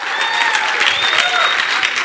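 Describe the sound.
A church audience on its feet applauds to welcome a speaker to the stage, a dense, steady wash of clapping that stays loud throughout.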